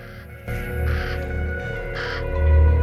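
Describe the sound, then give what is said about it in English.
Two loud, rasping caws from black-feathered birds strutting on a caravan roof, spaced about a second apart over a low, steady rumble. “A pair of black feathered birds strut back and forth on the roof of a caravan.”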